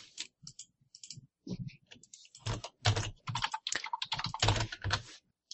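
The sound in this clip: Typing on a computer keyboard: many quick, sharp clicks arrive in irregular bursts and runs with short pauses between them, growing denser and louder through the second half.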